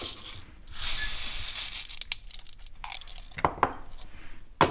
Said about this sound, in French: Et on va les verser dans le bocal.